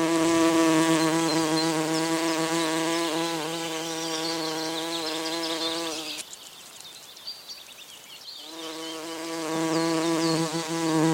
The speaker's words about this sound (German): Das war eine Hummel.